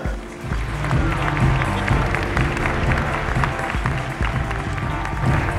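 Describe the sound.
Sustained applause from an audience welcoming a speaker on stage at a Yahoo event: a dense, steady wash of many hands clapping that holds loud for the whole stretch, with no speech over it.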